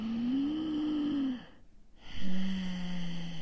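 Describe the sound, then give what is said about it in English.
Exaggerated demonstration of breathing through a narrowed, constricted throat, heard as two long, low, rasping breaths with a hummed tonal edge, separated by a brief quiet pause. “And we do that by squeezing the breathing part of the throat, actually. So we make the throat a bit smaller. So it does sound a bit like this.”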